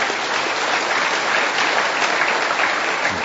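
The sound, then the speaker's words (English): An audience claps for a couple's 50th wedding anniversary, a dense, even wash of applause that holds steady throughout. “congratulations on your 50th wedding anniversary. Thank you. What advice, give him a hand for that.”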